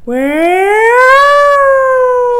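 A person vocally imitates a wailing warning siren, producing one long, loud tone that rises steadily in pitch, holds briefly, then slowly falls, heard on its own without other sounds.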